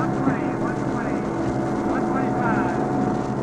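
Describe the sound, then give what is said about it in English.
Propeller airplane taking off from the Ladd Field airstrip, a continuous droning engine roar at a steady, moderately loud level with some wind noise mixed in. “Now I can feel that we've lifted off the airstrip and we are airborne. We're in the air.”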